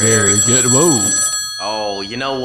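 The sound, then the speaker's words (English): A telephone rings as someone calls in to a show, its continuous high electronic tones sounding beneath lively voices talking and exclaiming. “That's the sound of somebody calling in.”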